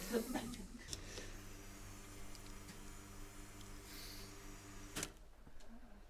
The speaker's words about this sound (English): That was the time machine resetting itself.